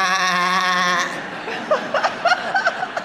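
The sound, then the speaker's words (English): A sheep gives one long, loud, steady bleat during a classical guitar concert, followed by several short bursts of laughter from people. “That was a sheep.”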